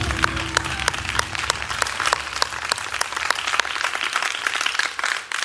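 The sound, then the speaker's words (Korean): Congregational applause during a church worship service, with dense, continuous clapping at a steady level throughout and crisp individual claps standing out. “하나님께 영광의 박수 한번 드리겠습니다.”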